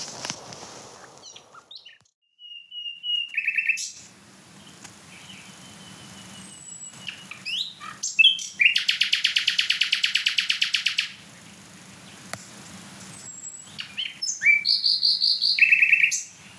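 A nightingale sings loudly in varied bursts: sharp chirps, whistled notes, and a long, rapid buzzing trill, separated by short pauses, with a quiet low hum underneath.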